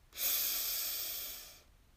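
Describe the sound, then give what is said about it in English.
A single deep, airy breath lasts about a second and a half, faint and alone, with a smooth hissing flow that eases off at the end. “Take a deep breath in”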